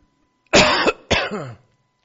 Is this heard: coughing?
yes